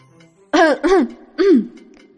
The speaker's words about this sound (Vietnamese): ho khan một tiếng